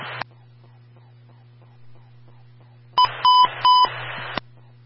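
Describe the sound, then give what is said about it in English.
A fire-department emergency radio transmission tone test: a short squelch burst over low radio hum, then a loud burst of pulsing, alternating electronic beep tones lasting over a second before cutting off with a click. “Company standby for the emergency transmission tone test.”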